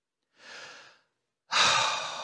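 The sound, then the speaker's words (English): A deep breath taken alone in two soft, airy breaths: a gentle first one, then a short pause and a louder, fuller sighing second breath. “Take a deep breath.”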